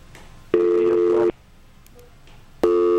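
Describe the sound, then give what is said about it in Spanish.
Busy tone after a dropped phone call on a call-in line: two steady low-pitched tone bursts, each under a second long, separated by a longer silent gap. “Parece que se nos cayó la llamada.”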